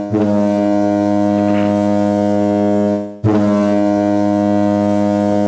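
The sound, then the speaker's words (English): Two loud, deep foghorn blasts: a steady, rich, low tone held for about three seconds, then a brief break before the horn sounds again. “But those foghorns, you know.”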